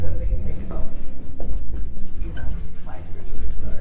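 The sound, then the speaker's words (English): Pen writing notes down on paper: rapid, repeated scratchy strokes in quick bursts, fairly loud and continuing throughout. “So let me write all this down.”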